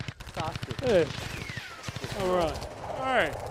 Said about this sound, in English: Oh god, I killed him! I accidentally shot him!